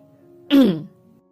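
A mother clears her throat once in disapproval, a short gruff burst of about half a second, heard alone over a faint steady hum.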